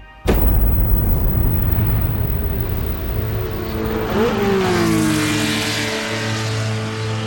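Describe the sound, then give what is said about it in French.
Formula 1 race cars roar away at the start of a Grand Prix at the Jacarepaguá circuit in Rio de Janeiro in 1988. A loud, dense engine roar bursts in abruptly and holds steady, with one engine note briefly swooping midway. “Dans la chaleur moite de l'Amérique du Sud, les Formule 1 viennent de prendre le départ du premier Grand Prix de la saison.”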